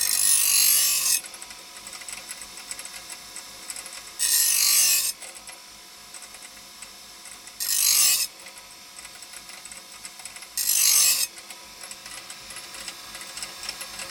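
A bench grinder sharpens metal on its finer grit wheel, four harsh, hissing grinding passes of about a second each, spaced several seconds apart over the motor's steady whirr.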